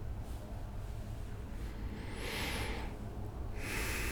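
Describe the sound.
Gasping, breathless breathing: a couple of sharp, rasping gasps, the first with a rising squeak, over a constant low hiss.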